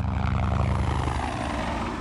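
A helicopter flown from Pennsylvania to New York with a prisoner aboard, its rotor and engine making a loud, steady, throbbing drone that holds even throughout.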